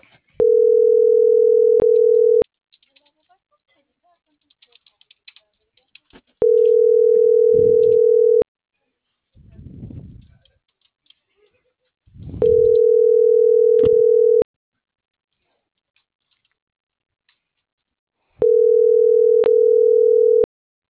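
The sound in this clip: Ringback tone of an unanswered telephone call: four steady, loud, low beeps of about two seconds each, separated by roughly four-second gaps that carry faint rustling.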